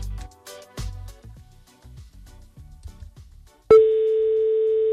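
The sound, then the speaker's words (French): A telephone ringback tone sounds as a radio presenter places a call to a listener for a prize draw. After several seconds of fainter tonal sounds, a loud, steady single-pitched tone starts abruptly and holds to the end. “C'est parti, on lance l'appel. On va voir chez qui ça sonne.”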